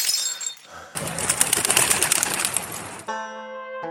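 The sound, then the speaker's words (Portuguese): A bird beats its wings and flies off in a rapid, noisy flutter of flaps lasting about two seconds, followed by a brief sustained tonal note. “Bateu asas e voou.”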